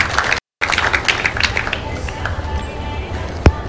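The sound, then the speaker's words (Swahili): Applause from an audience for the President of Mozambique at an awards ceremony held at an exhibition. A dense, steady patter of clapping is broken by a brief gap near the start, with one sharp knock near the end. “Makofi tena mengi kwa Mheshimiwa Rais wa Jamhuri ya Mozambique.”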